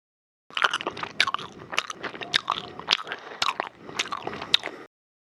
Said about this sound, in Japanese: ガムを噛んではダメです。